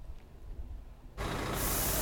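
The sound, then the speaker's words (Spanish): Water cannon spray from riot police trucks cooling people during record heat in Berlin: a sudden loud, steady rushing hiss that bursts in after about a second of faint background and turns brighter midway. “Y allí en Alemania combaten así el calor. Los camiones antidisturbios se usaron ayer en Berlín para refrescar a la gente, que la verdad lo agradeció en medio de unas temperaturas récord.”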